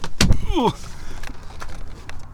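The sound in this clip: A car door as someone gets out of the car: a sharp clunk, then a brief squeaky creak, followed by a few faint taps and rustles.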